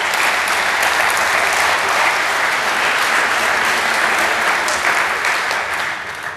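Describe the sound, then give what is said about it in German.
Steady applause from an audience, dense and even throughout, easing off slightly at the very end. “Das ist nicht gut, jetzt zu applaudieren.”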